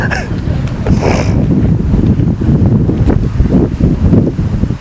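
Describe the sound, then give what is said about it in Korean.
Outdoor wind buffets the microphone in a steady, loud low roar that fills the whole clip, with gusty swells rising and falling but never stopping. “자 여러분 이게요 바람 너무 좋다.”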